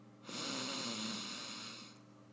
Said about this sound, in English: let's begin by taking a deep breath in through our nose.